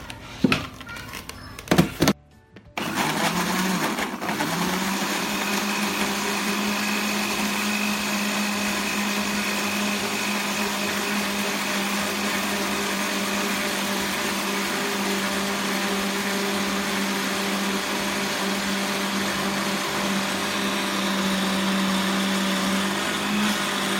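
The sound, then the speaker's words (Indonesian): An electric blender whirs through ingredients mixed with water, a loud, steady, unbroken motor drone lasting about twenty seconds after a brief clatter at the start. “Dan secukupnya air. Oke. Langsung kita blender.”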